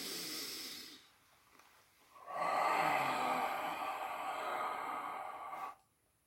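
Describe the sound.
A deep inhalation during a breathing exercise: a short soft breath, a pause, then a long, slow, airy intake of about three seconds, quiet and unaccompanied by talk.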